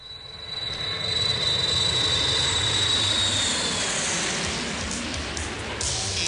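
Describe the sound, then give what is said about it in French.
A propeller airplane engine warming up before takeoff, giving a steady, even droning roar with a thin high whine that fades partway through. It stays constant throughout with no voices. “Fais chauffer l'avion, s'il te plaît. Nous partons dans l'Iowa!”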